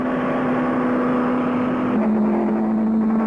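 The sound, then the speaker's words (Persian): Race cars speed around a track during a race, their engines making a loud, continuous droning whine that steps slightly lower in pitch partway through, with no voices heard. “داره با سرعت حرکت میکنه. به طوری که من ببینم چرخش بازم دچار نقص فنی شده. اتومبیلا خیلی سریع دارن جلو میرن.”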